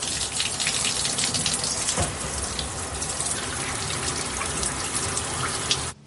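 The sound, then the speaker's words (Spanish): Water runs from a shower as a woman stands under the spray. It makes a steady, loud, hissing rush that stays even throughout and then cuts off abruptly near the end. “está bajo el agua de la ducha”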